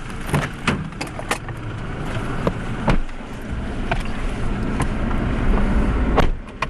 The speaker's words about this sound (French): Au départ de Kitwe, nous sommes quatre dans un véhicule.